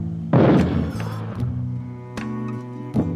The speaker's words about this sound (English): that was mortars